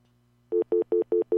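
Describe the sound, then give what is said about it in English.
Landline telephone tones: a faint steady low tone plays, then five short, evenly spaced beeps of equal pitch sound over it, signalling a waiting voicemail message. “That's a busy signal that goes into dial tone, but that means that you have a message.”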